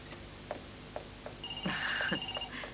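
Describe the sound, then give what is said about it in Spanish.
A telephone rings in a film scene as a faint electronic warbling trill in the second half, preceded by a few soft clicks. “Oh, me están llamando. ¿Será para algún negocio?”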